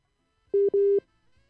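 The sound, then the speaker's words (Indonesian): A telephone line signal sounds while a radio host calls a listener: two steady, mid-pitched electronic beeps, the second longer, heard alone against a quiet line. “Halo, Bu Yeni. Kita coba kembali memanggil Ibu Yeni ini.”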